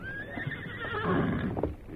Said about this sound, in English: Have to take the horse back, too.